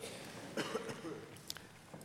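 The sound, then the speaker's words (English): A person with chest congestion coughs a few times, quiet, short harsh bursts with a throat-clearing quality, alone without talk. “Actually, the cough is a good sign that the congestion is breaking up.”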